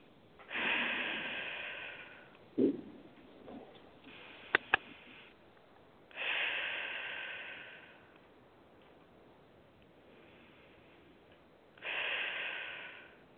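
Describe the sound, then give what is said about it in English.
Three slow, deep breaths, in through the nose and out through the mouth, come one after another at a steady, unhurried pace. Each is a soft, airy rush of moderate loudness. A small click and a couple of faint ticks fall between the first and second breaths. “Please take three deep breaths. Breathe through your nose and exhale through your mouth. Please do that three times.”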